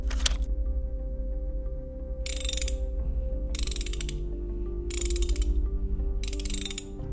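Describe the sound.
A wrench ratchets in short bursts of rapid clicking, five bursts spaced a second or so apart, over a steady low mechanical hum that runs throughout.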